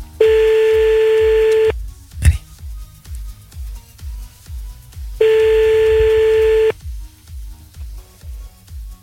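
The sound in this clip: Ringing tone of an outgoing telephone call: two long, steady mid-pitched tones separated by a pause, with a sharp click between them, over a continuous low rhythmic pulsing background.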